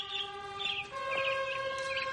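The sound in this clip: A caged songbird singing, with faint, repeated warbling chirps over a steady sustained tonal hum.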